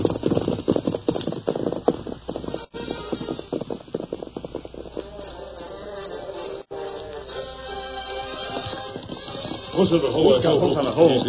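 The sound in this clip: Hoofbeats of the horses Scout and Silver riding off, a rapid irregular drumming of hooves at first that thins out, followed by a denser, busier wash of sound toward the end.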